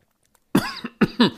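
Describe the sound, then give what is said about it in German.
Coughing after choking on something: four harsh coughs in quick succession, the second one softer, sounding alone without any talk. “oh. Verschluckt.”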